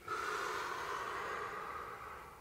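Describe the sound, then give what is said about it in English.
One long, steady breath drawn during a stretching exercise: a smooth, airy rush that holds evenly and thins slightly toward the end. “And breathe out. Breathe in. Breathe out.”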